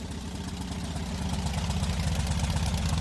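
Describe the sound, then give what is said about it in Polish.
A motorcycle engine in very good condition idles steadily, its low rhythmic putter even and moderately loud throughout, with no voices. “Pięknie chodzi. Około 5 tysięcy. jak na motor tej klasy, to jest bardzo dużo i jeszcze pewnie dużo, dużo pochodzi.”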